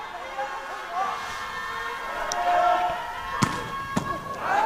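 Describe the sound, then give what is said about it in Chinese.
A volleyball serve by player Wang Bin, number 23, in a match against Japan, cracks out as a couple of sharp slaps over steady crowd noise, with commentary running underneath. “23号王斌的发球”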